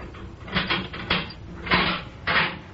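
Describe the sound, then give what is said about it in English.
A prison cell door being opened, heard as several loud metallic clanks and rattles in quick, uneven succession. “Here is the professor's cell, comrades. Open it, Captain.”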